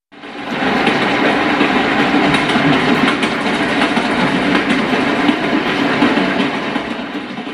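A commuter train running from Johannesburg to Soweto makes a steady, loud rumbling roar with a rhythmic clatter of wheels. It starts abruptly and continues unbroken, with no voices.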